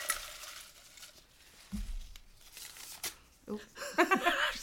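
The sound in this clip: A sheet of paper is torn up in a few short, crackly rips that grow busier toward the end, with a voice heard nearby.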